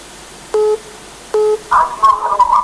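Telephone keypad dialing tones for a phone call: two short, steady beeps about a second apart, followed by a wavering tonal sound.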